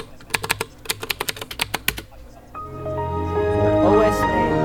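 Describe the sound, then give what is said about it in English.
Keystrokes on a computer keyboard as a password is typed on a Windows XP machine running a screen reader: a quick run of about a dozen crisp taps, then a steady tonal sound takes over. “And I'll just press and type password.”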